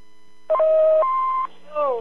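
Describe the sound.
An answering-machine beep signals the start of a message: a clean electronic tone steps from a lower pitch to a higher one and cuts off sharply. A voice follows after a short gap.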